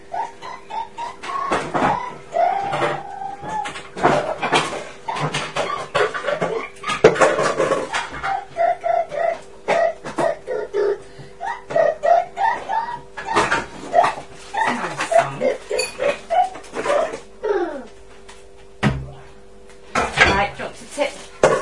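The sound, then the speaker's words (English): Dishes clatter as a mixing bowl is taken out in a kitchen while making a cake. Many irregular clanks and knocks of crockery and cutlery mix with people talking throughout. “Right. Let's make the cake. Okay, just a sec. The bowl out.”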